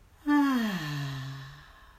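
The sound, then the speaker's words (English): A loud voiced exhale through the mouth during a guided breathing exercise, a single long sighing breath that starts strong and slides down in pitch before fading out. “Once again, a deep breath in, and a loud exhale.”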